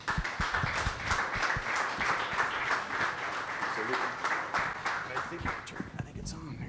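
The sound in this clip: An audience applauds as a speaker is introduced, a dense, steady wash of clapping that fills the whole stretch and eases slightly near the end.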